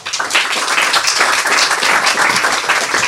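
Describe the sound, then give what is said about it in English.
Audience applause welcoming an author to read: steady, dense clapping from many hands, fairly loud and even throughout, with no voices over it. “Let's hear some welcome sounds for our next author, Beatrice Altieri.”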